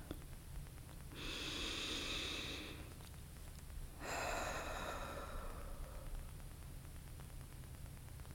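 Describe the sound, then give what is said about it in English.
Faint breathing during a guided breath exercise, in through the nose and out through the mouth: two soft, hissing airflows, each lasting roughly one and a half seconds, separated by a short quiet gap, with no voices. “Take a breath with me. Inhale through the nose, exhale through the mouth.”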